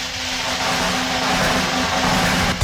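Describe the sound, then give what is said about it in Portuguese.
Drumroll played for a radio prize draw, a steady rolling rumble that holds evenly for a couple of seconds before ending in a single sharp hit. “Toquem os tambores. Vamos lá com o sorteio.”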